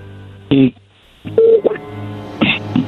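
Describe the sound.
Telephone dialing tones sound as a call is placed: a few short, steady beeps separated by brief gaps, with a low hum underneath.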